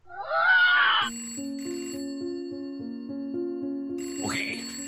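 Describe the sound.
An incoming call rings on a telephone: a steady electronic trill with fast pulsing holds for several seconds. Short swooping sounds come before it and near its end.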